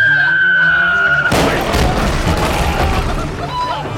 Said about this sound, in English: you hear that? It sounded like an explosion.